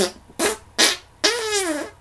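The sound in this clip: Three fart sounds from a comedic character who threatens adventurers with burps and farts. Two short bursts come first, then a longer buzzy, tonal blast, all loud and with no talk.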